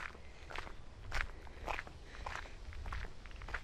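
Footsteps of a person walking alone on a path through a nature area with animals and horses, a steady series of soft crunching steps at a fairly even pace, moderately quiet with light background noise.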